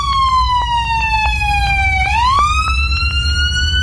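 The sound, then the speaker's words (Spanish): An ambulance siren wails loudly and steadily. Its pitch glides slowly downward, sweeps sharply back up and then holds high, with faint regular ticks running underneath. “Sí, las sirenas de la ambulancia que chocó, ¿eh?”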